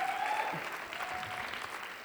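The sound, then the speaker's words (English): An audience gives a round of applause: continuous, fairly soft clapping that tapers slightly toward the end. “please give her a round of applause.”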